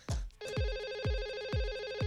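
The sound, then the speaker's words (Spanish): A telephone rings with an incoming call, a steady bright electronic trill with a buzzing tone that sets in after a short opening burst, pulsing in a regular beat of low thumps about every half second. “pero tengo llamada telefónica.”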